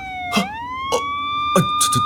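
A fire truck siren sounds in heavy traffic: a loud, sustained tone with strong harmonics that rises early on and then holds steady, broken by several short, harsh bursts on top.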